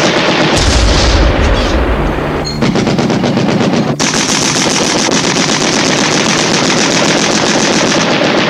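Loud, rapid machine-gun fire from paired anti-aircraft guns shooting at an aircraft in a wartime scene, with harsh bursts following one another without pause through the whole clip.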